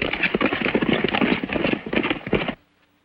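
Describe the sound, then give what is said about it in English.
Horses gallop as a gang of riders charges into a ravine, a fast, dense patter of many hoofbeats that stops abruptly near the end, leaving near silence. “Zanty and his gang gallop into the ravine.”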